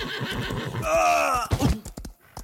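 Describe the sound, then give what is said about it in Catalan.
A large, wild black horse lets out one loud, quavering whinny. Rougher breathy snorts and thuds surround the neigh. “Que aquell cavall salvatge no deixava que ningú el muntés.”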